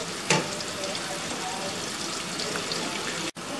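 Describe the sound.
Food deep-frying in oil until very crispy, giving a faint, steady hiss of bubbling and sizzling that carries on throughout, with a brief louder crackle near the start.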